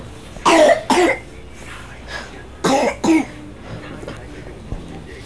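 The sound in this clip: Coughing from a person, heard as two pairs of sharp, harsh coughs in quick succession, separated by a short pause, followed by faint, softer sounds.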